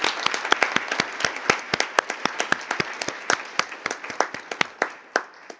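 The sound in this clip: Applause at a meeting of parties to a protocol, approving Hungary's election as chairman by acclamation. Many irregular claps ring out at moderate loudness, scattered and uneven throughout, with no voices over them.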